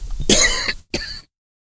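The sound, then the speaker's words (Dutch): Two dry coughs in quick succession, the first longer and harsher, the second shorter, followed by silence. “ik hoest al”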